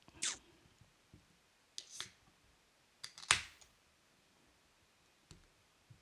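A craft beer being opened: a few sharp clicks and snaps, the loudest one carrying a brief bright hiss, with no talk over them.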